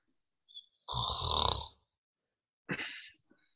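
Snoring: two long, rasping, breathy snore-like bursts, fairly loud, separated by a very short faint high tone, with no talk over them.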